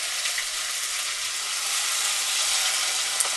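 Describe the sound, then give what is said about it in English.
Chopped potatoes and fresh cubed tomato sizzle as they sauté in a pan with cumin seeds, making a steady, even hiss and crackle that holds at a constant moderate level throughout, with no talking. “And we'll just saute these potatoes for a few minutes so that they get a slightly fried appearance”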